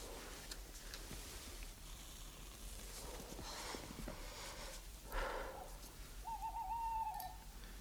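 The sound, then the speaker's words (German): A faint owl hoot: one drawn-out, steady tonal call near the end, low in level over a hissy, rustling background. “Eine Eule?”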